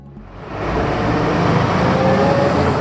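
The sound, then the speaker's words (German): Morning rush-hour city traffic in Lausanne: a dense, continuous roar of car engines and road noise that swells in at the start and stays loud throughout, with no voices. “Morgendlicher Stoßverkehr in der Stadt Lausanne. Die Leute fahren zur Arbeit.”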